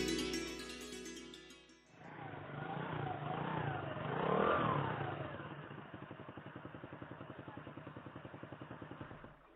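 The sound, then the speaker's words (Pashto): A motorcycle engine rumbles roughly after a short stretch of music, swelling in strength and then settling into an uneven, chugging pulse that continues to the end. “دا ولې دا څنګه بند شوې را؟ اوه موټر سایکل تا خو زه په داسې ځای کې پرېښودم”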